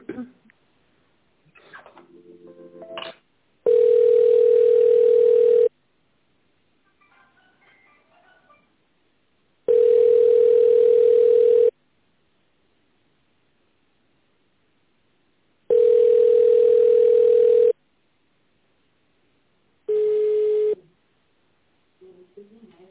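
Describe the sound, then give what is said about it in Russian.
Telephone tones while a call is being connected: a short run of stepped dialing tones, then three long, steady mid-pitched beeps and a fourth shorter one, separated by near-silent gaps. “Так, давайте сейчас соединю вас.”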